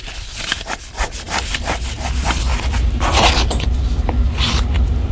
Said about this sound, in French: Et l'outil qu'on a en main, c'est ce qu'on appelle un chasse-peau. C'est une lame en acier en fait affûtée qui nous permet de couper la peau avec une bonne dextérité.